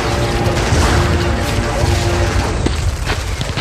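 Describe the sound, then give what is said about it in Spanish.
Gunfire and explosions from a comedic radio battle scene form a dense, continuous barrage of booms and crackling bursts, loud and unbroken throughout. “¡Sigan disparando!”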